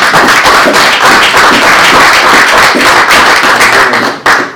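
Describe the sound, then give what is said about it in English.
An audience applauds after a museum event, a loud, dense wash of many hands clapping that holds steady for about four seconds before dropping away. “ladies and gentlemen, I have a round of applause for”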